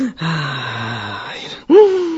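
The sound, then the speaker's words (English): A person breathing loudly and slowly to calm down: a long, drawn-out voiced exhale, then a shorter sighing breath, clear and alone. “sit down and breathe loudly and slowly, like,”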